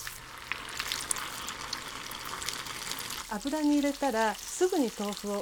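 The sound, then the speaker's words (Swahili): Tofu pieces frying in hot oil give off a steady, bright sizzling hiss that runs alone for about three seconds before a voice starts speaking over the continuing fry. “Ikiwa mafuta yatakuwa ya kutosha na yote yawe na kiwango sahihi cha nyuzi joto, unaweza kukaanga vipande vingi vya tofu kwa wakati mmoja.”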